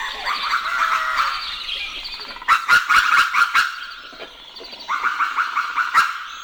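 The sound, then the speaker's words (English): Birds sing at sunrise in Sonoma Valley, California, with overlapping chirps and trills. A short run of sharp clicks cuts in midway and again near the end. “This is what sunrise in Sonoma Valley, California sounds like. Dr. Bernie Krause recorded it.”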